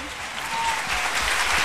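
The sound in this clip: Audience applause at a live music show in Mantova breaks out for a performer and her backing singers: dense, steady clapping that swells slightly after the first moment and holds at a loud level to the end.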